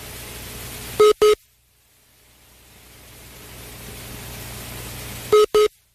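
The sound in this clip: A telephone call being dialed: two pairs of short, clear electronic keypad tones, one pair at the start and one near the end, with a steady hiss in between and no talking.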